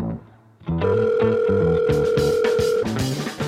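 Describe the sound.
A sustained electronic telephone tone signals a call coming into a joke theological-emergency phone line, holding steady for about two seconds over a pulsing, rhythmic backing beat.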